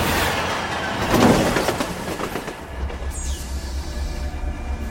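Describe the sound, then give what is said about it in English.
A train runs on rails with a steady, loud, broad rumbling roar and a low rhythmic clatter underneath. A faint high wheel squeal sweeps briefly past midway through. “I've been driving this train for 100 years, and I still don't know how it does anything.”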